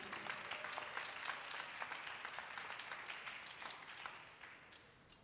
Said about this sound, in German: Applaus für Lina.